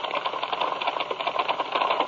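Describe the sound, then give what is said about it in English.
Typewriter typing: a dense, steady clatter of many rapid keystrokes that runs without pause at an even, fairly bright level, with no voices. “doing a little typing for me”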